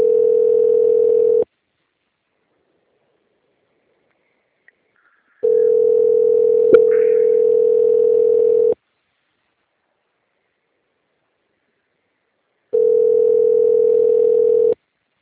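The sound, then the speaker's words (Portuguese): A telephone tone sounds while a call is being transferred: three long, steady single-pitch bursts separated by stretches of silence. “eu vou transferir a ligação, você não pode desligar, tá?”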